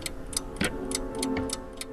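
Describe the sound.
A tower-like mechanical wooden clock whose gears drive six screens ticks in an even rhythm, about seven crisp ticks roughly a third of a second apart, over a faint steady mechanical hum.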